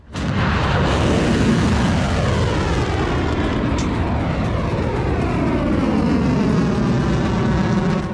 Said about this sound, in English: The launch of the Khyber Shaykan medium range ballistic missiles that are being launched in this case at Muwaffaq al-Sulti in Jordan.